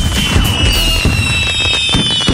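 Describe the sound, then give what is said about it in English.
Fireworks at a Canada Day evening celebration: dense, continuous crackling and booming bursts with whistling tones streaking through, loud from start to finish with no voices. “end the night with a spectacular fireworks display between 9:30 and 10 p.m.”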